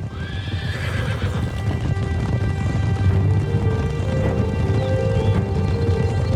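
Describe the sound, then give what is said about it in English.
Galloping hooves of a large cavalry force on a ride against the Boers during the relief of besieged Kimberley, a dense, continuous rumble of hoofbeats with horses neighing above it. “A series of tactical feints to confuse the Boers culminate in an exhausting cavalry ride led by Major General John French.”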